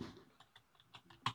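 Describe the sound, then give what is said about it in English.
Faint typing on a computer keyboard, a few light clicks at uneven intervals, alone with no voices. “I'm typing.”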